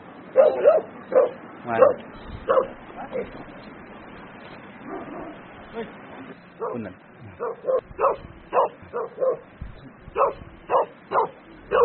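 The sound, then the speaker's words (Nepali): Dogs bark as they chase another dog at a herders' hut in Sikkim. Many sharp barks and yips come in quick bursts at the start and end, with a quieter stretch of whimpering in between. “इन्डियाको कुकुरले, सिक्किमको कुकुरले नेपालको कुकुर खेदाइदियो।”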